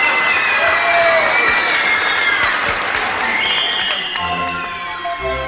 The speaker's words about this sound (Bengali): দর্শক কিছুক্ষণ হতভম্ব থেকে হঠাৎ তুমুল হাততালিতে ফেটে পড়ল।